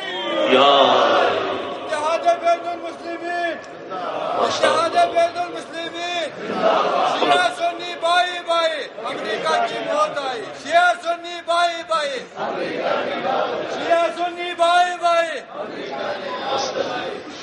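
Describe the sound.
A crowd chanting a religious slogan together, many voices shouting in loud, repeated bursts that rise and fall in a regular rhythm throughout.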